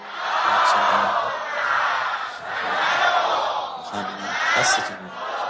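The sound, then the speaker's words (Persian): A large crowd chants salawat in unison, many voices swelling in loud surges that rise and fall in waves. “یه صلوات بفرستین درست درمون ها.”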